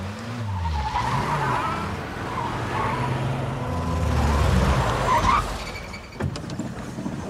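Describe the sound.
A car skids to a stop with a long, loud tire screech over a roaring engine. The screech builds for several seconds, then cuts off, followed by a few faint clicks.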